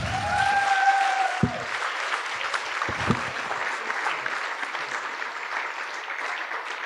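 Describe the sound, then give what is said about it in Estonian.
Crowd applause, a dense, steady clapping that holds at an even level throughout, with a couple of sharp thumps early on. “Teeme aplausi selle meilile.”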